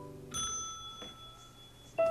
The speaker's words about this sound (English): We'll just ring this bell right here.